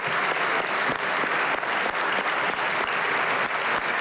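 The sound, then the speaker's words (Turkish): A party group stands to applaud in a parliament's general assembly as a leader takes the rostrum. The ovation is sustained and loud, a thick, even wash of many hands clapping at once that holds steady from start to finish. “AK Parti grubu ise Erdoğan'ı uzun süre ayakta alkışladı.”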